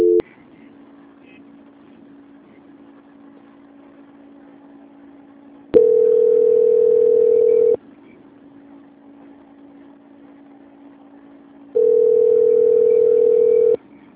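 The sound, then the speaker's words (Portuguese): Telephone line tones play during a bank call transfer: two long, steady, mid-pitched beeps of about two seconds each, separated by several seconds of low, even line hum. “a ligação vai ficar muda e eu vou transferir para a auditoria do banco”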